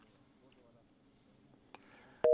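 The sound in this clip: A telephone line tone as a caller is put through to a radio show: a click, then a steady, loud tone that starts near the end over a faint background.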